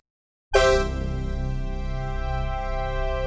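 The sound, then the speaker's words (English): A sforzando chord is struck loud with a sharp attack, then drops quickly to a softer level and holds steady for about three seconds, rich and sustained, after a brief silence. “they hit that chord really strong and then they immediately come off of it. It sounds a little like this.”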